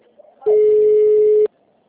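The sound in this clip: A telephone busy tone sounds as one steady beep lasting about a second at a constant mid pitch. It is loud and alone, with only quiet background before and after.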